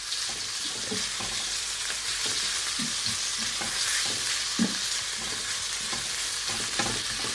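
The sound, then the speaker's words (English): Bite-sized chicken pieces fry and get stirred around a pan, giving a steady, bright sizzle broken by frequent soft scraping and stirring knocks. No one talks. “Now I've cut my chicken into bite-sized pieces. So this cooking off part should only take, you know, 3 or 4 minutes or so. So I'm just going to move it around the pan.”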